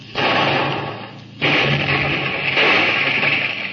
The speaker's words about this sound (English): Forward gun! Fire!